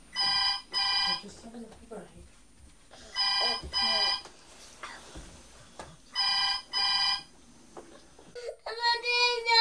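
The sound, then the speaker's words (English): A telephone rings in a home in three double-ring bursts of bright, trilling bell tone, with people talking in the gaps between the rings. “Oh, that's the phone.”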